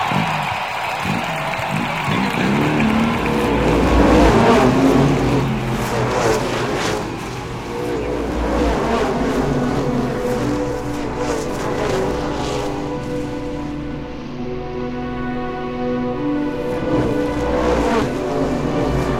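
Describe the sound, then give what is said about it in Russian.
Race cars speed past grandstands in a continuous loud roar of engines, with surging passes rising and easing over the stretch. “Машин проносится мимо трибун чаще, чем через каждые 2 минуты.”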